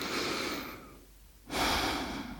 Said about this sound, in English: please close your eyes and take a deep breath.